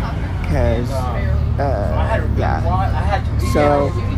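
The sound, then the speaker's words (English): Low, steady rumble of a moving bus interior runs continuously beneath a person talking throughout. “I could actually hear myself, even though I could hear the background a little bit, but, I figure I may as well do it while I'm on the bus.”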